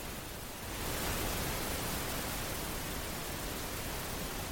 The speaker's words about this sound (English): Let's try this. Selected. Balanced noise.